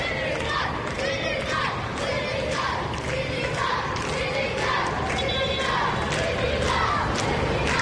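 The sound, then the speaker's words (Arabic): A stadium crowd of football fans backs Senegal's national team during a corner kick, a dense roar of voices chanting in a steady rhythm that never lets up. “ضربة زاوية سنغالية مع جماهير حاضرة في المدرجات تؤازر منتخب السنغال.”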